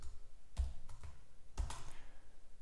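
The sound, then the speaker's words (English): Typing on a computer keyboard: a few soft key clicks in two small clusters, faint and alone. “so here we will type select picture like this”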